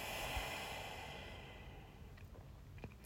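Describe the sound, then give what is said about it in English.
A faint, slow breath, part of a round of deep breaths taken in through the nose and out through the mouth. It is a soft, airy rush that gently tapers off. A few tiny clicks follow. “gently close your eyes and take a few big deep breaths, just in through your nose and out through your mouth”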